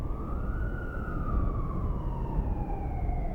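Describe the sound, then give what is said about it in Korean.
A siren wails on a street, a steady tone drifting slowly lower for several seconds over a dense rumble of traffic noise. “어디서 사이렌 소리가 났지만”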